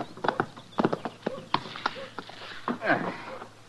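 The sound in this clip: Horse hooves clip-clopping past a saloon in a dusty frontier town: sharp, irregular clops and knocks, fairly loud, with a few softer scuffs between them.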